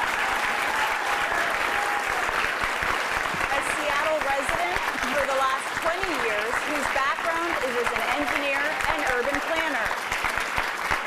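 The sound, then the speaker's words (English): A debate audience applauds to welcome the candidates, a steady, dense clapping that holds at an even level throughout while a voice speaks over it. “they've agreed to hold their applause except for now as we introduce the candidates”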